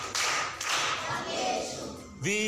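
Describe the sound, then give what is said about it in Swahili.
Children clapping for a classmate at a primary school riddle session, a dense burst of applause lasting throughout, with a voice rising in at the very end. “Makofi kwa mjomba.”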